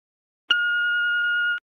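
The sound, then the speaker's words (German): An answering machine beep: one steady electronic tone lasting about a second, starting and stopping cleanly against silence. “Anrufbeantworter.”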